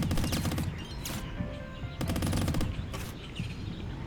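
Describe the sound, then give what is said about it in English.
Rapid gunfire from a video game, aimed at rocks holding up an anchor. Several loud machine-gun-like bursts of quick shots are separated by brief gaps, over a steady background bed. “There's like some rocks holding the anchor up. So I'm just gonna shoot those.”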